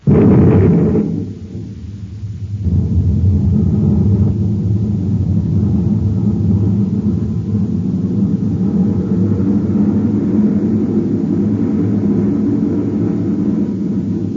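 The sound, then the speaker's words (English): Spaceship rocket engines fire at half-G acceleration, a loud, steady low roar that dips briefly after the start and then holds a dense, rumbling drone with no voices. “Stand by to fire rockets. Half G acceleration. Standing by, sir. 1/2 G. Fire rockets.”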